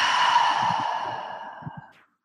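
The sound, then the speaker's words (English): A deep, slow exhale during a guided calming-breath exercise: one long, breathy rush of air, fairly loud at first and fading gradually to silence over about two seconds. “Let's take a deep breath in. Okay. Let that exhale out.”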